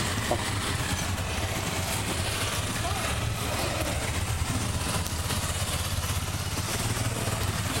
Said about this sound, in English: A big motorcade of bikes going by.